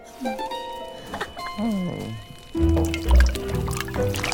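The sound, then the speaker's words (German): A herb brew bubbling in a witch's magic pot: soft, watery gurgles and pops after a few gliding, twinkling tones, moderately quiet and continuous. “Schon bald brodelt der Sud”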